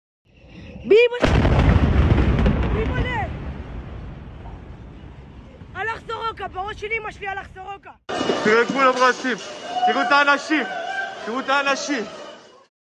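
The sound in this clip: Bombing explosions from news video footage of a strike on a hospital in Be'er Sheva, Israel. A single loud, deep blast erupts with a rumbling decay, followed by raised voices shouting amid noisy commotion.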